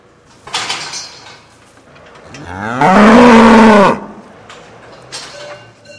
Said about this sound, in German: Daheim im Stall sind seine Mutterkühe gerade dran, Öko-Heu zu fressen.